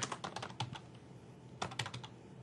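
Quiet computer keyboard typing: a quick cluster of key taps, a short pause, then a second brief burst of keystrokes.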